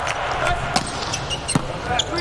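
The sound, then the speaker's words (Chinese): A volleyball serve struck during a match gives a couple of brief, sharp impacts that sit under steady commentary and background crowd noise. “科瓦洛夫的发球，”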